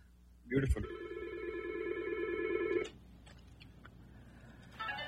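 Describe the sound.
An incoming call rings a telephone line at a radio station. A loud burst gives way to one sustained electronic ring, which fades into quiet background noise before a second ring begins right at the end.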